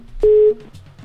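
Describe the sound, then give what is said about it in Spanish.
A telephone ringing tone on an outgoing call: a single steady electronic beep lasting about a third of a second, fairly loud and clear, followed by quiet line noise. “Ahí está ya timbrando, vamos a ver si tenemos oportunidad de que nos conteste en esta ocasión Víctor.”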